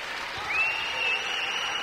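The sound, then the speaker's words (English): A women's college basketball crowd stands and applauds a player on senior night, keeping up a brief, steady wash of clapping at an even level. “And the crowd still standing and clapping for Charity Savage.”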